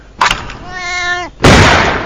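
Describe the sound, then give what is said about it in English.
A sharp gunshot crack in a comic clay-shooting game with a kitten as the target, followed by a drawn-out cat meow that dips in pitch at the end, then a loud, sustained noisy burst. “What we're trying out today here is clay kitten shooting.”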